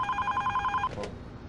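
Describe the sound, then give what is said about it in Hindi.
A telephone rings with a fast, evenly pulsing bell-like trill lasting under a second, then cuts off, leaving a faint scrape and low background noise. “अरे ये telephone बजे जा रहा है।”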